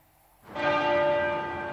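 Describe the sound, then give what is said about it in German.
A church bell at Westminster Abbey tolls in mourning, struck once a minute. A single loud strike blooms into a long, rich ringing hum that decays slowly on its own. “99 Mal schlagen heute Abend die Glocken der Westminster Abbey. Im Minutentakt.”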